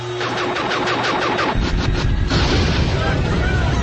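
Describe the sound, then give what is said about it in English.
A science-fiction heat ray firing and burning people: a loud, continuous roaring blast of crackling noise with a rapid pulsing texture that shifts into a deeper, heavier rumble partway through. “Some sort of heat ray. It's turned them to fire. It swept them out of existence.”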